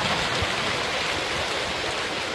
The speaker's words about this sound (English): Thousands of plastic balls splashing into the Los Angeles reservoir.